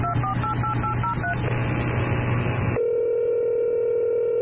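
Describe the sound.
Touch-tone keypad beeps and a telephone dial tone as a call is placed. A quick run of short dialing beeps sounds over a noisy background, then a steady continuous tone holds to the end.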